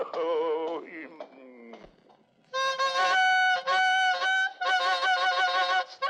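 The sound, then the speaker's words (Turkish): A bugle blares the youth march in loud, harsh, held notes that come in a short phrase and then a longer run of sustained tones with brief gaps, following a few seconds of voice. “Yeter yeter. Borazan değil, cehennem gürültüsü bu. Ölüleri bile mezarlarından kaldırabilir. Sustur şunu.”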